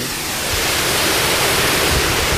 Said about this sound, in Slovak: Pod nami tečie hrmoce. Vieš, ako sa povie po poľsky vodopád? Nemám tušenie. Vodogrmoty. A naozaj hrmí.